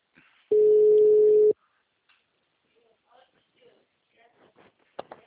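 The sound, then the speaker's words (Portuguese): A telephone ringback tone sounds as a call rings: one steady, mid-pitched tone lasting about a second, loud and alone, followed by faint scattered sounds. “Aí, tá chamando”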